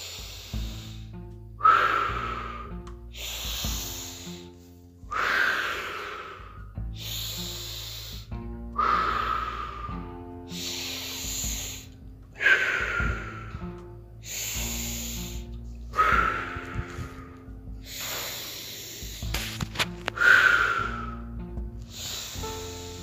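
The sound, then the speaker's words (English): Slow, deep breaths repeat at an even, unhurried pace, each a rushing, airy breath that swells and fades, heard faintly over a soft, steady drone. “Ten more deep breaths.”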